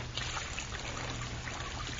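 Running water for washing flows in a continuous, quiet hissing trickle, steady and unbroken throughout.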